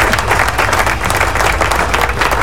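Loud, sustained crowd applause during a live Spanish-language program at a roast-pork eatery, a thick, unbroken wash of many hands clapping at a constant level from start to finish.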